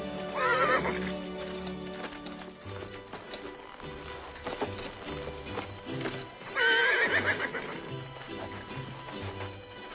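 Horses whinny loudly twice, once near the start and again later, over a steady clip-clop of hooves as riders set off together.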